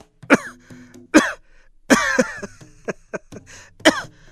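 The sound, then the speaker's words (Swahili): A man's chronic coughing fit, harsh and rasping, likened to a motorcycle: several rough, loud bursts arrive irregularly, with a longer throaty spell near the middle and quieter wheezy rasps between them. “Akianza kukohoa utadhani ni pikipiki.”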